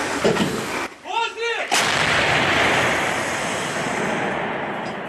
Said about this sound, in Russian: Наводимося, один снаряд по готовності вогонь.